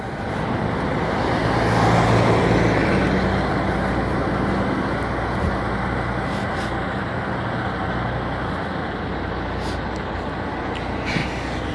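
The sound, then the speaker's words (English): Steady road traffic rumbles at a trailer stop where trucks and trailers park, a continuous broad roar that swells slightly early on and then holds level. “There's a lot of trailers that park over here. It's like a trailer stop.”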